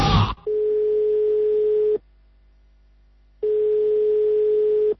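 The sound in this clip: A telephone tone sounds on a call to a leader that fails to connect: two long, steady, mid-pitched beeps separated by a silent gap of over a second, after a brief burst of sound at the start.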